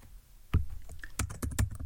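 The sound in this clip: Keystrokes on a computer keyboard as text is typed: a few sharp, irregular clicks, with the loudest ones bunched in the second half.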